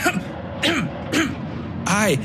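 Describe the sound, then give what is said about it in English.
A voice imitates a series of dry, abrupt coughs into the crook of an elbow: a few short, throaty bursts spaced apart, clear and fairly loud. “He leaned to the side and made a series of dry, abrupt coughs into the crook of his elbow.”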